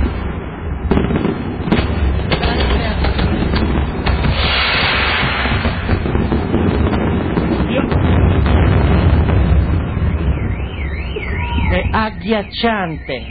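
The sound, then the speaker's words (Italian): Loud gunpowder explosions from fireworks: many dense, overlapping bangs and crackles keep up without a break, and warbling whistles rise near the end. “C'è il rumore della polvere da sparo!”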